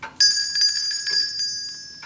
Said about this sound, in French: Arrête un peu de sonner la clochette et tire un peu plus tôt sur la petite ficelle qui pend, comme d'habitude.